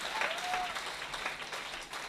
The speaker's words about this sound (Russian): Let's give the Lord Давайте воздадим Богу аплодисменты.